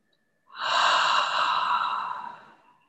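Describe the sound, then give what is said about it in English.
Deep breathing: one long, airy breath swells in, holds steady and slowly fades over about two seconds. It is fairly loud, stands alone with no talk, and is followed by silence. “Exhale. One more time, inhale.”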